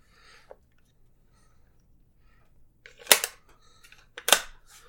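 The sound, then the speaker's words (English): A rifle bolt being slid back into the action: a faint click, then two loud, sharp metallic clacks near the end, each followed by a brief rattle. “Hang on, let me reinstall the bolt.”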